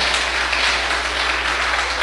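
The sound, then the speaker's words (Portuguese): A church audience clapping hands during a worship service, a dense, steady wash of many hands applauding together without pause and without talking. “Bate palma para Jesus, ô glória. Maravilha, glória a Deus. Pode bater mais forte as palmas para Jesus.”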